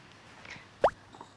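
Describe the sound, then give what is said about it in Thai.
Spices and cloves are dropped into a pot of masala chai, producing a single soft plop against quiet background noise. “ใส่เครื่องเทศเนี่ยลงไปในหม้อนี้เลยเช่นเดียวกันใส่ก้านพลูค่ะ”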